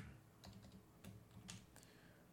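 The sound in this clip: Typing on a computer keyboard into an IMDb search: a few soft, scattered keystroke clicks, very faint and without talk.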